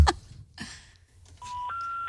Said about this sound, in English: Okay, I'll call the neighbor like on the left.